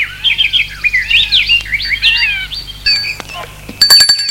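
A gate intercom buzzer sounds after a few seconds of lively bird chirping and trilling; the ring is an electronic burst of bright tones ending in rapid, repeated beeping pulses.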